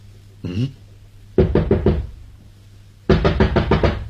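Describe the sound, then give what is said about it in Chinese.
Knocking on a door comes in two bursts of rapid, sharp raps, the second a little longer than the first, separated by a pause. “难道没有听见敲门啊？”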